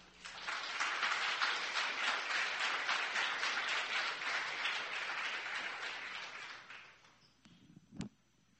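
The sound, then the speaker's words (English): A church audience applauds in welcome, with dense, sustained clapping that holds for several seconds, then fades away, followed by a single brief thump. “So right this time, just please give them a warm Calvary welcome.”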